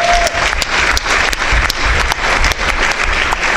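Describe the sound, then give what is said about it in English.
Loud, dense audience applause fills a packed town hall auditorium, with continuous clapping at a steady level for the whole stretch. “Let's have a hand for you for showing up tonight.”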